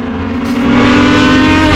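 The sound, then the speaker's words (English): Race cars racing on race day at a local speedway, a loud, continuous engine roar that swells a little and then holds steady throughout. “It's race day at Shenandoah Speedway, like it is most Saturdays in the summer.”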